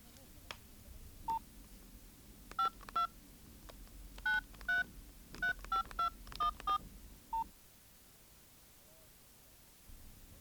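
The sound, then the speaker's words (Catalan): Beeping keypad tones as a number is dialled on a mobile phone, a run of short pitched beeps at uneven spacing over faint hiss, followed by quiet. “Truca al diari i a veure què diu el dire. Té, agafa el meu, no gastis més bateria d'aquest.”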